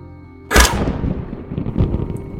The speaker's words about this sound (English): and fires. And it is a thunderous shot.